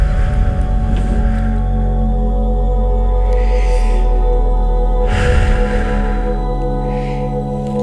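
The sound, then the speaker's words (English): Slow, deep breaths are drawn in and out under steady music: a few soft, airy swells, each rising and fading. “Take some nice deep breaths in and out.”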